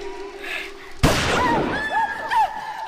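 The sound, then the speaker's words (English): A single sharp, loud gunshot, fired to miss and scare away rats, bursts out after a quiet stretch, followed by a lingering decaying tail and a few brief higher sounds. “Scaring them away. Are you mad? I shot to miss.”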